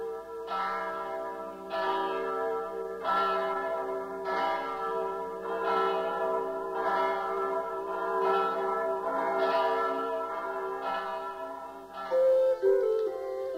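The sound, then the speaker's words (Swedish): Church bells ring in slow, even strokes, each clang blending into a rich, sustained hum of overtones, repeating many times at a steady pace with no voices. “föreskrev att det skulle ringas i alla klockor i hela Rom.”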